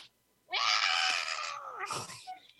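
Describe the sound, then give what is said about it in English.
A human voice imitates a cat's screaming meow: one loud, drawn-out, strained wail lasting over a second, followed by a shorter rough burst. “my cat's is meow. It's like she screams. She scream meows.”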